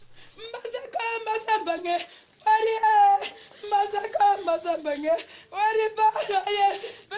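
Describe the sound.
A 62-year-old mother sobs and wails for her 27-year-old son, a police officer killed in fighting with separatists in an English-speaking northwest region, her wavering, tearful cries coming in several long bursts with short breaks.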